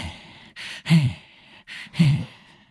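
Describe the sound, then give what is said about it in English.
A voice imitating heavy breathing: two loud, breathy in-and-out cycles with a rough, rasping edge, each separated by a short pause. “another thing you know is that he's kind of like breathing heavily. He's kind of like,”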